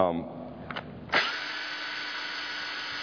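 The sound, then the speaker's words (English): Power drill driving a screw through material: a brief whir, then a sharp start into a sustained, steady high whine lasting about two seconds. “But graciously, I have something made to put screws through. Make sure I put my hand on the back of this so it'll go right through.”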